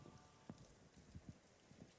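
Rain falls on a cathedral rooftop as a faint, steady patter, with a few slightly louder drops standing out.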